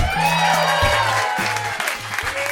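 Audience applause welcoming a guest to the stage, blended with music whose bass notes step in a repeating pattern, the clapping forming a continuous wash under the tones.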